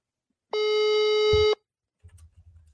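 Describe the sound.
Telephone ringback tone as a call is placed to a phone with very poor signal: a single steady electronic tone lasting about a second, followed after a pause by a faint low rumble.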